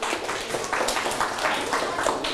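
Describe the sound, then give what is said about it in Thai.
Clapping from a group of students cheering on classmates, a busy patter of many hands with uneven bursts, moderately loud and continuing through the short clip. “ปรบมือครับ”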